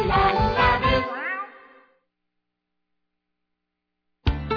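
Kitten meowing, a drawn-out harmonic cry that slides downward in pitch and fades away, followed by a stretch of silence before another sudden sound begins at the end.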